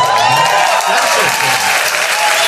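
Loud, steady applause from a live audience, dense clapping that holds at an even level throughout.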